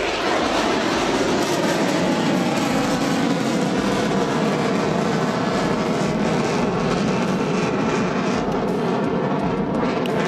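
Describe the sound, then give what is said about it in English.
Two F-16 fighter jets banking overhead: a loud, unbroken jet roar fills the whole stretch, steady and dense with no pauses and no voices. “So you can just hear in the background, we've got two F-16s and banking to the right there.”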